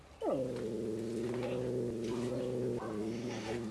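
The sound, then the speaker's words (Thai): A cat gives a loud, drawn-out tonal growling yowl while confronting a newcomer cat. The pitch dips at the start, then holds steady for a couple of seconds before a shorter renewed cry. “ครับก็มีการขู่กันนะครับทั้งตัวที่อยู่เก่าอยู่แล้วเนี่ยครับก็จะมีการแสดงความเป็นเจ้าของพื้นที่แล้วก็ตัวใหม่เองเนี่ยก็ไม่ใช่ตัวที่จะเข้ากับใครได้ง่ายเหมือนกันนะครับก็จะมีการแยกเขี้ยว”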